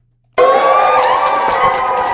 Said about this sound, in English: she walked into a room of dozens of parents and students cheering her on